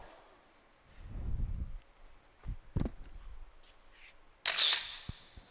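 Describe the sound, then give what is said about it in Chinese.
A camera shutter fires for a photo, a sharp, bright click near the end. A few softer thumps and clicks come before it over a quiet background, with no talking. “我就想跟他照张照片，放在我的书桌前激励我，怎么了？”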